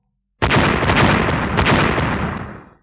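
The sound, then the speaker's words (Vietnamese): A loud explosive boom erupts suddenly and rolls on as a dense, rumbling blast for about two seconds before fading out, heard alone. “Ba tiếng nổ liên tiếp vang lên, quyền đầu màu vàng của Diệp Hàm”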